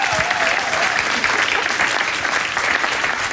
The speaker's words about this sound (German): Ich bitte um einen herzlichen Begrüßungsapplaus.